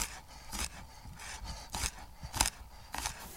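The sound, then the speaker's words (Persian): A knife chops four or five garlic cloves on a board while vegetables and legumes cook, making a series of sharp, irregular cutting knocks at moderate loudness with no talk. “من میام 4-5 تا حبه سیر رو خوردش میکنم”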